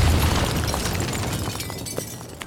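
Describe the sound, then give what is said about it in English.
An explosion rips through an old carriage house that had been turned from a laboratory into a factory: a dense, broad rumbling roar that sustains and slowly thins, with a couple of sharp cracks near the end. “The old carriage house exploded.”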